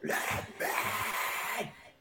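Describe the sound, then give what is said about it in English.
A person's voice imitates the scream from a song, letting out three loud, raspy, strained screams in close succession. “I can't remember the name of the song, but it's the song when he goes like,”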